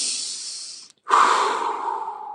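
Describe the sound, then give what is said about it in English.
Deep breathing by a person: one long, airy breath, a brief silent pause, then another long, heavier breath that slowly fades. No words are spoken. “All right. I'm deep breathing. I'm not talking to anybody.”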